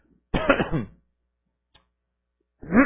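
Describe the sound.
A man clears his throat during a sermon with one short, rough voiced burst. A faint click follows after a pause, then another voice sound begins.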